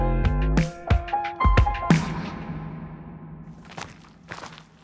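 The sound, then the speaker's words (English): Footsteps of a group of men in peacoats trampling on gravel on a dark block: a few heavy thuds come first, mixed with some tonal ringing, then quieter scattered crunching steps follow. “A group of men were walking down our block, and it was very dark, and they were all wearing their navy blue peacoats, and only sound you heard was this trampling of their feet on the gravel.”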